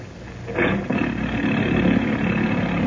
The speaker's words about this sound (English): Why not take this boat, the Marianne? She's in ship-shape condition and just as comfortable. Very well. The Marianne it is. Give the motor a turn, will you, Denny?